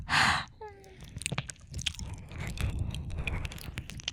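Close, wet mouth sounds of nibbling and eating on an ear: a loud breathy burst, then many soft crunchy smacks and moist clicks in an uneven rhythm.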